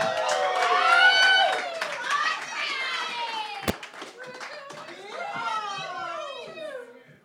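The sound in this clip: A crowd applauds and cheers as two finalists are welcomed at a competition final. Clapping runs under overlapping whoops and shouting voices that rise and fall, with one sharp clack near the middle before the cheering swells again.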